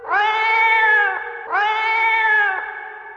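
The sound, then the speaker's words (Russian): Two long, loud yowls from an angry cat, each a drawn-out harmonic cry that dips in pitch at its end, separated by a short gap, with no voices. “Рассердился кот, вскочил, да как цапнет разбойника лапой.”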